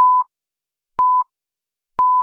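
A radio hour time signal of three short electronic pips, identical and clear, at one steady high pitch. They are spaced evenly one second apart, with silence between them.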